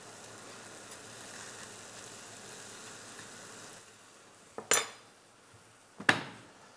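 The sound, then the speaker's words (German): Bread toasts in a pan with a faint, steady sizzle, then two sharp metallic clanks as the slices are turned. “So, pass auf. Jetzt drehe ich das um und röste das so an,”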